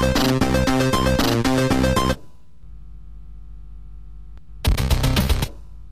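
Loud, dense electronic sounds come from the video game Exploding Fist in two bursts: about two seconds at the start, a quiet low hum, then a shorter burst before the hum returns.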